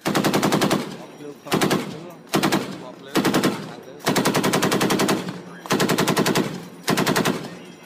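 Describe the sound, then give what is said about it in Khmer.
Naval vessels from two countries fire live rounds at a target at sea, with rapid automatic gunfire in seven rattling bursts. Each burst is separated by a short gap, and one runs longer than the rest. “កងនាវានៃប្រទេសទាំងពីរបានបាញ់គ្រាប់ពិតចេញពីនាវារៀងៗខ្លួនទៅលើផ្ទាំងសៀបនៅចំកណ្ដាលសមុទ្រ”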